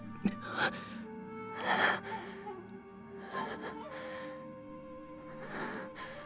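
A badly wounded man lies on the ground, his chest pierced through, drawing weak, ragged gasping breaths. Several breathy gasps and wheezes come in uneven bursts, some sharper than others, fairly faint overall.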